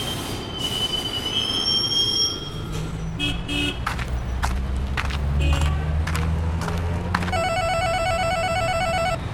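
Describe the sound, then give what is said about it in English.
Metal wheels squeal as a train arrives at a downtown Santa Monica station. A steady low rumble runs throughout, thin high-pitched squeals come early, and a loud harmonic metallic screech rises near the end. “Now arriving downtown Santa Monica Station.”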